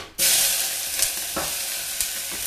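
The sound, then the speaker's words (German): Onions, mushrooms and carrots hit hot oil for a vegan dish and burst into a loud, steady sizzle after a brief quiet moment, with a few soft stirring bumps breaking the hiss. “So, dann nehmen wir alles zusammen, die Zwiebeln, die Champignons und die Karotten und geben sie ins heiße Öl.”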